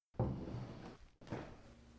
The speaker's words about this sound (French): Si, tenez, on frappe. C'est vrai. Oh, vous avez l'oreille encore plus fine que moi.